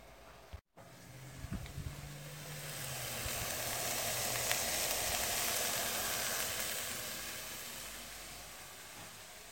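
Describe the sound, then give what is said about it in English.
Soft sizzling of onions, carrots and seasonings sautéing in olive oil, a quiet continuous hiss that swells gently through the middle and eases slightly, with a few faint clicks near the start. “while the onions, carrots, and other seasonings are sauteing in olive oil”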